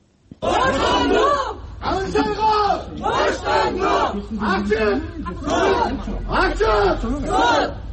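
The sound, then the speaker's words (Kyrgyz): About thirty supporters gathered outside a courthouse shout in unison, demanding a journalist's release and an open trial. Loud, rhythmic chanted phrases come in repeated bursts with short gaps between them. “Журналистти колдоп, сот имаратынын алдына чогулган 30 киши Канышайга боштондук, сот ачык болсун деп кыйкырып турушту.”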